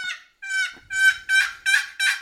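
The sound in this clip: Turkey yelps made on a hand-operated turkey call: six clear, high, raspy notes in a steady rhythm, with no talking.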